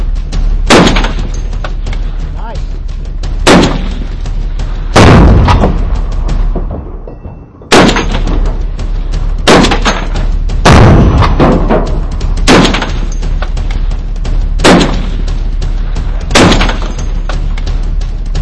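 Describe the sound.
Gunshots fired point blank at a target in daytime: a series of loud, sharp reports spaced a few seconds apart, each with a lingering decay, over a steady noisy background.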